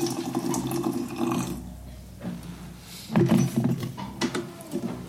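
Tea being poured out as the first batch, a steady splashing liquid flow that thins briefly near the middle, then returns louder and more uneven.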